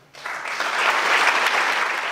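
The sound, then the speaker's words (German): Standing ovation from the audience at the Whistleblower Prize 2013 ceremony: loud, dense clapping that starts abruptly and holds steady throughout. “Die Verleihung an den stellvertretenden leeren Stuhl wurde von stehenden Ovationen aus dem Publikum begleitet.”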